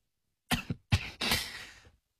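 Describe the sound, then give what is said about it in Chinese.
Coughing from a person: a few short, loud, harsh coughs in quick succession, the last one drawn out longer and breathier before fading, with no talking. “陶依然咳嗽两声”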